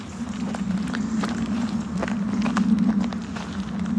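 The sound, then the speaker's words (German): Footsteps of people strolling slowly: soft, evenly spaced steps over a steady low drone. “Also das, die Geschwindigkeit, die wir jetzt gehen, es ist eigentlich kein Gehen, oder? Nein, dazu sagt man Schlendern.”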